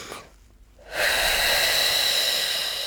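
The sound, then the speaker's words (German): A deep human breath taken during a breathing exercise meant to ease tension between the ribs: quiet at first, then a loud, breathy rush of air that holds steady until the end. “Also sehr tief einatmen, halten, halten, halten und dann”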